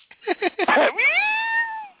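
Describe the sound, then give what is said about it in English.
A squeezed toy cat meows: a few quick squeaky pulses lead into one drawn-out, bright meow that sustains and then tails off. “I squeezed one to make it meow for everybody.”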